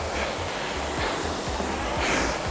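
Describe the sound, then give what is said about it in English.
Steady whooshing whir of a rowing machine's flywheel or water wheel, a continuous airy rush with soft low pulses recurring at a regular stroke-like rhythm and no voices. “You should hear the flywheel or water wheel, whatever you have on your machine,”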